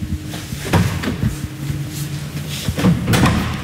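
A car trunk lid opening: a few sharp mechanical clunks and rattles from the latch and lid, spread over a few seconds above a steady low hum.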